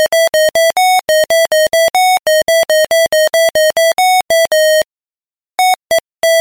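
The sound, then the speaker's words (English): A monophonic mobile phone ringtone plays a 2003 pop hit as loud, bright electronic beeps. Rapid staccato notes follow a bouncy rhythm and change pitch, then stop briefly before a few final notes. “let's count them down and hear some truly horrendous monophonic versions of all the great hits of 2003.”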